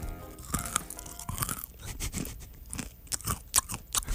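Crunching of a crunchy snack mix with dark chocolate: dense, dry crackling bites and chewing repeat many times in an irregular rhythm, moderately loud, with no talking.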